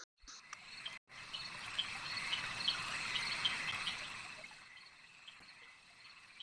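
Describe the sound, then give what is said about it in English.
Frogs croak and trill in a dense, continuous night chorus in a dark swamp. The sound is faint and even, breaks briefly near the start, and thins slightly toward the end. “So I'll say to our new friend, watch out for these frogs, not friendly.”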